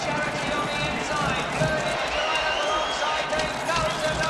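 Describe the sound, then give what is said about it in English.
Hoofbeats of horses pounding toward the finish line of a race form a dense, continuous drumming rumble, steady and loud throughout, under talking voices. “Trotter looks skyward as the horses pound to the finish line.”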